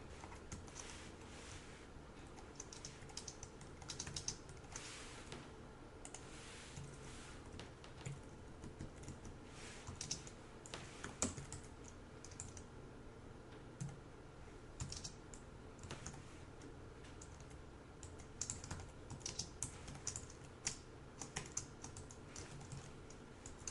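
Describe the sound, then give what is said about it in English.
Computer keyboard keys clatter as someone types a line of programming code. Many quick, light keystrokes come in an uneven, continuous patter, faint and with no talk. “And so let's write a simple line of code like this.”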